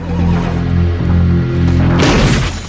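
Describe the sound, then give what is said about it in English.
A shotgun blast blows out the rest of the glass in a 4x4's windscreen: one sharp, bright burst lands near the end over a steady low hum that runs throughout. “Jim ducks beneath the dashboard as Ryder's shot blows out the rest of the glass from the windscreen.”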